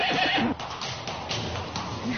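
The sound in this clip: A horse whinnies loudly at the start, then the sound drops to a quieter, rough, breathy noise that carries on to the end.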